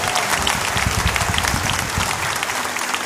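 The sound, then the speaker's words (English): A crowd applauds for a birthday with steady, dense clapping that holds at an even loudness throughout. “Yesterday was Matt Sloma's birthday. Let's give Matt a big hand.”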